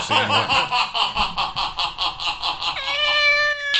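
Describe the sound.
A cat in a video, with a run of quick rhythmic pulsing sounds followed by a drawn-out tonal meow near the end.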